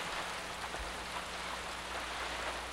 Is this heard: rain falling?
yes

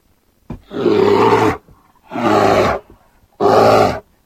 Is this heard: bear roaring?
yes

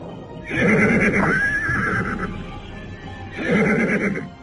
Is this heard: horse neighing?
yes

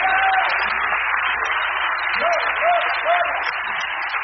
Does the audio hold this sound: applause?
yes

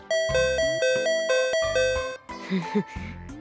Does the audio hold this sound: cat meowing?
no

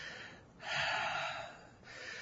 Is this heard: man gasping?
yes

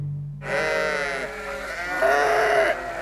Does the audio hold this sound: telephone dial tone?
no

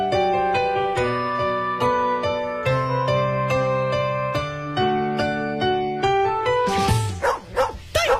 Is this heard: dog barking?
yes

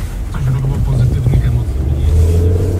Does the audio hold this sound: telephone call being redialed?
no

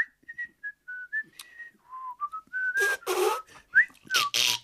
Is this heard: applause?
no

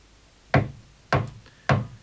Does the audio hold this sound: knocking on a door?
yes

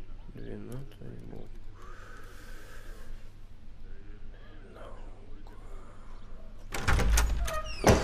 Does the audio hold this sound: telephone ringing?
no

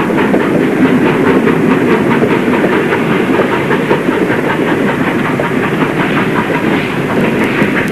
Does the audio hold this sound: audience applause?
no

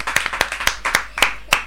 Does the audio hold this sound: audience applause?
yes

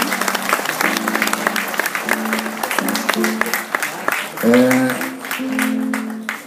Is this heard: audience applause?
yes

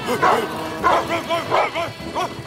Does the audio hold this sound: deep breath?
no

